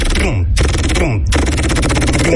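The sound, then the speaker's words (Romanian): A voice imitates machine-gun fire with a loud, rapid, continuous rattling burst, broken by two short pauses. “Bagă și mitralieră.”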